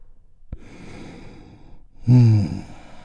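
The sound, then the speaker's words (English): A group takes a deep breath together and lets it go: a sharp click, then a quiet drawn-in breath, followed by a louder, sighing exhale that fades out. “let's take a big, deep, healing breath. All together, here we go. And release.”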